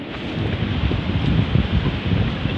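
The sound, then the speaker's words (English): Wind blowing outdoors by a pond, a steady, fairly loud rushing roar of noise with low rumbling gusts throughout and no voices. “The wind though, wind kind of vibing.”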